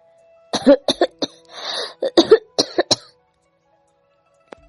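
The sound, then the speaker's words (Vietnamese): Hoarse, painful coughing comes in a rapid series of harsh bursts, broken by a long raspy breath in the middle, then a second cluster of coughs before the sound falls silent. “Bên tai liên tục truyền đến tiếng ho khàn thống khổ của người kia.”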